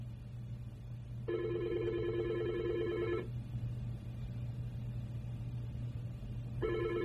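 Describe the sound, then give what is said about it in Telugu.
A telephone rings as a listener calls in to a radio programme: one long trilling ring burst, then a pause, then the next ring starting, all over a steady low hum. “All right, ఇంకొక శ్రోత phone చేస్తున్నారు, వారితో మాట్లాడదాం.”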